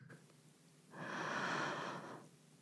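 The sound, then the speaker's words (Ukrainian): One long, audible breath, a soft breathy rush that swells and fades over about a second and a half, alone with no talk. “Видих. Вдих. Видих.”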